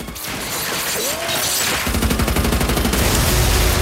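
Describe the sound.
Machine gun fire: a man lets rip from behind a car's trunk at two charging black vehicles. A noisy lead-in gives way to a loud, sustained, rapid-fire burst through the second half.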